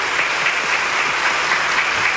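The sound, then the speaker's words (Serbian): Long, dense applause from parliament members standing to approve the proclamation of the constitution of the Socialist Federal Republic of Yugoslavia, steady unbroken clapping at even loudness throughout. “Svi poslanici su ponovo ustali i dugotrajnim aplauzom odobravaju”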